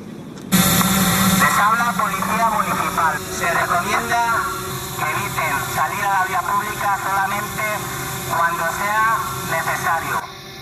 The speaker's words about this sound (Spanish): Son los drones con los que la Policía Municipal de insta a los vecinos a quedarse en casa. Por megafonía han recordado que no hay que salir a la calle si no es estrictamente necesario.